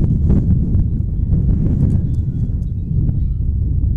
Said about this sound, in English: The wind has been relentless. It has not stopped blowing for half a second here in either game with a doubleheader, and it seems to be blowing even harder now than it was earlier.